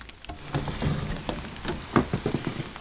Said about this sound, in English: And I'm really, really glad that I'm not outside right now. Listen to that. I'll open the window. I'm going to get rained on.